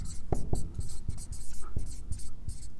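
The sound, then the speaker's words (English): Handwriting strokes scratch across a surface in short, dry bursts, with a few soft low knocks mixed in as the writer moves between strokes. “I know Mary like teaches a class on how to write beautifully, and I think I need to take that class. I got a lot of work to do, but anyway, my handwriting's not the best.”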